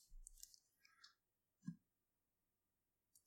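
Handling noise from a microphone being moved and its mute button pressed: a few soft clicks and rustles, then one louder dull thump midway and a faint click near the end, with no voices.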